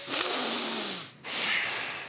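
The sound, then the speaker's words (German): Nasal exhaling during a breathing exercise: two long, airy breath bursts of steady hiss, separated by a short silent pause, the second slightly softer than the first. “Dann kurz einatmen. Dann ausatmen. Genau, am besten mit der Nase.”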